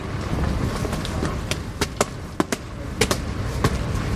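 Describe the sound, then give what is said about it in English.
Footsteps climb a set of steps as sharp, crisp taps over steady background noise. Several irregular treads land in quick succession, with no talk. “And we're about to go up some steps. Prepare for authentic step noises.”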